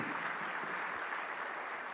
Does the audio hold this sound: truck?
no